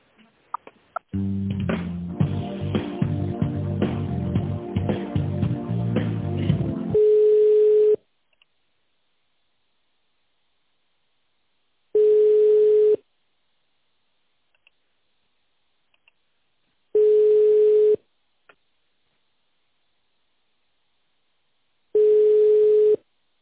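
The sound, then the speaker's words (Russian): Telephone line tones while a call is transferred: a dense burst of mixed tones and clicks gives way to four steady, mid-pitched ringing tones, each about a second long, separated by stretches of silence. “Сейчас я на секретаре вас переключу, спросите, да? Может быть, они вас на отдел тогда переведут. Минуточку.”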